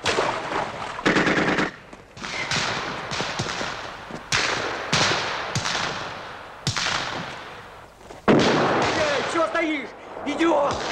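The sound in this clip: Gunfire rings out as a gun is fired from behind a tree, with many sharp reports and rapid bursts, some loud and some fainter, and voices heard in places.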